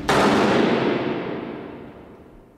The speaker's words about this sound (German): in den Festungsgraben, wo der Exekutionspeloton sie erwartete. Dann ging alles sehr schnell. Leg an! Feuer!